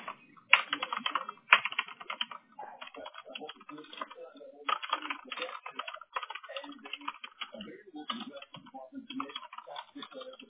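Typing on a computer keyboard: many rapid, crisp key clicks in bursts separated by brief pauses, continuing steadily throughout, without talk.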